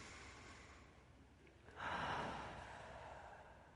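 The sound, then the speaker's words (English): A single deep breath taken to calm the nerves, a faint, airy intake that swells suddenly and then slowly tails off, alone without talk. “now I'm going to take a deep breath because it calms my nerves”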